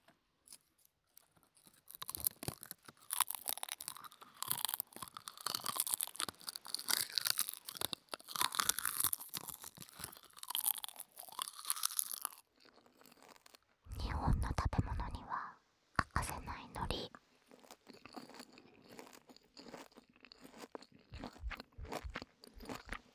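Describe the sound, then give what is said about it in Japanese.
Someone chews and crunches a large piece of low-calorie food, giving many rapid, crisp, quiet crunches with pauses between bites, and whispered speech in between. “ちょっとね、1枚結構大きいから全部食べるのは大変なんですけど。”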